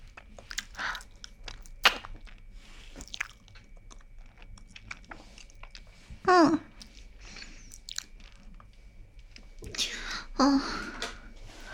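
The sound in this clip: Someone chews a bite of cake with soft, wet mouth sounds and a few louder crunchy bursts. Quiet voices can be heard between the bites.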